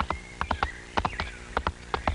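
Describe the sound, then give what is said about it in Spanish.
Hooves of a horse clip-clop as it is called to come, giving many sharp, hollow knocks in uneven pairs and small groups across the whole clip. No talk is heard. “¡Véngase, mi caballo! ¡Véngase! ¡Venga, mi caballito!”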